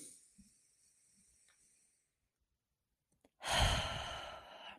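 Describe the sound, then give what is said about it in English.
A deep cleansing breath: one long, loud, hissing exhale that comes suddenly after a near-silent pause, with faint soft breathing earlier. “Okay, let's all take a deep cleansing breath.”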